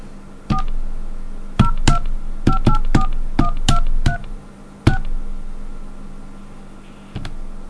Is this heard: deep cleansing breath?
no